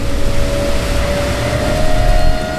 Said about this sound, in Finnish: meillä on 17 solmun nopeutta ja vene lähti nyt kokonaan irti vedestä. Ajetaan suunnilleen tätä veneen ja myös sen P12 sen vesibussiveneen optimaalista marssivauhtia